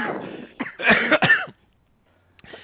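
Coughing and throat clearing come in a few harsh, loud bursts packed into the first second and a half, followed by a quiet pause and one more short cough at the end.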